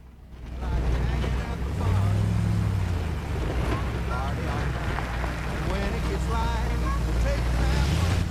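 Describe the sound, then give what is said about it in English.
A police squad car drives into the grounds of a house, its engine giving a loud, continuous low rumble under broad hissing noise that holds steady for about eight seconds. “A squad car drives into the grounds of the house.”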